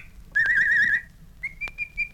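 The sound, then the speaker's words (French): Whistling as if calling a neighbour's dog: a loud, wavering, warbling whistle held for over half a second, then after a short pause a steadier, level whistle that runs to the end, with no talk. “Siffle le chien de la voisine.”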